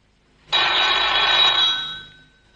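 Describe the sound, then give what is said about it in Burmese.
A telephone bell rings in one sustained burst, a bright, dense metallic ringing that starts abruptly, holds steady for over a second and then fades away, with no voices. “ဟောတယ်လီဖုန်းလာတယ်”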